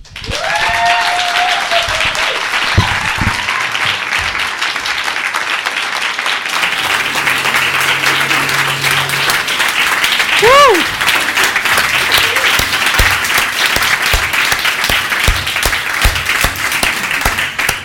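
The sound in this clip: A women's retreat audience applauds with loud, sustained clapping throughout, and a few shouts or whoops rise above it.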